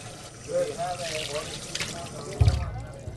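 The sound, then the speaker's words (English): Tap water runs steadily as hands are washed at a hospital sink, a soft continuous trickle with one brief louder splash near the end and faint voices in the background. “His first priority, everyone on the staff is urged to wash their hands a lot.”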